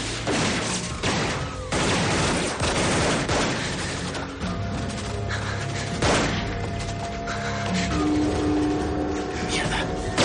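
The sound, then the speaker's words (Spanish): Gunfire in a corridor shootout from the 1999 action thriller The Corruptor: many loud, rapid shots and crashing bursts, almost continuous, with a sustained musical tone entering later. “Nick sigue disparando a los agresores en el pasillo.”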